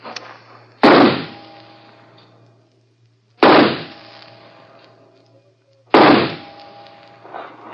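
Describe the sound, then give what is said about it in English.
Three sharp, loud pistol shots fired at a target during a shooting contest with a six-round handgun, evenly spaced about two and a half seconds apart, each a crisp bang with a decaying tail over a faint low hum. “Take the first three shots? Very well. I must just check that it's loaded. Yes, six bullets.”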